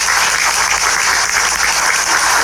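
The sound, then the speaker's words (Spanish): Loud, dense audience applause at a preschool education ceremony, a steady, even roar of many clapping hands that continues without pause. “Fuerte los aplausos.”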